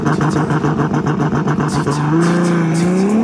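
A Mazda car accelerates hard in launch mode: a loud, rapidly pulsing engine note is held briefly, then the engine roars and climbs steadily in pitch as the car pulls away.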